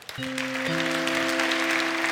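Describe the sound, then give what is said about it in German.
Applause from an audience after a talk: dense, steady clapping that swells and holds at an even level, with a faint sustained tone running underneath. “Herzlichen Dank und großen Applaus bitte.”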